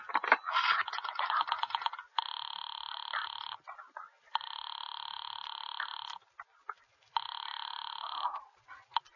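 A telephone rings in three long, steady electronic bursts, separated by short silences and preceded by a couple of seconds of quick rattling clatter.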